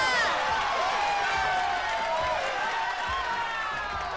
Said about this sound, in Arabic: يستاهل سقفة كبيرة.